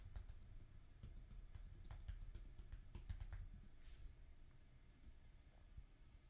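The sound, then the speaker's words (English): Typing on a computer keyboard: a long run of rapid, irregular key clicks with no voices, the keystrokes bunching into quick bursts and short pauses over a low steady background. “I'm going to type that.”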